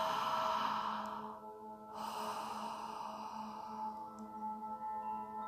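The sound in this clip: Soft breathing in and out through the mouth during a guided grounding exercise: a medium inhale, then a slower exhale, faint over a sustained tonal drone.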